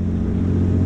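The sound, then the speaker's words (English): A British Challenger 2 tank, driven by Ukrainian soldiers in training, gives off a heavy, steady engine rumble, a deep continuous drone that holds at an even loudness throughout. “That is the sound of Ukrainian soldiers training to use a British Challenger 2 tank.”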